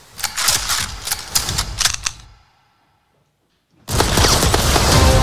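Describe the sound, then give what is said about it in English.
Gunfire in a movie scene: a dense, crackling burst of many rapid shots lasts about two seconds, then sudden silence, then a loud, steady wash of noise. “They're all a terrible shot. Why were they shooting at nothing?”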